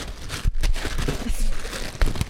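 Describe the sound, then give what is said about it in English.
Plastic and paper packaging of a mailed parcel crinkles and rustles as it is torn open, giving irregular scraping and crumpling bursts at a moderate level. “go ahead and open this one. You're more fun to watch open packages.”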